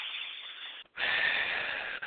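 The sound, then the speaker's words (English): A deep breath drawn in slowly through the nose, then a louder, longer breath pushed out through the mouth, with the start of another breath at the end. The airy hiss stands alone, with no talk. “big breath in through your nose and out through your mouth”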